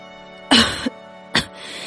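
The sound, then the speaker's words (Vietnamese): A cough and a spit into a palm: a harsh throaty burst followed by a shorter sharp one, two brief sounds alone against a quiet steady hum. “Freycinet chống khuỷu tay dậy, rên khẽ, ho và khạc vào lòng bàn tay.”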